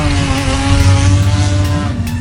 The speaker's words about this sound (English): we've got three words for you. Start your engines.